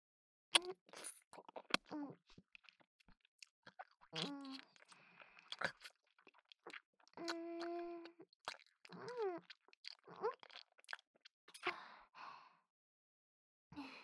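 Crunchy chewing of a sweet, honey-filled apple: a few crisp bites and wet mastication, broken by short sighs and murmured vocal sounds between mouthfuls.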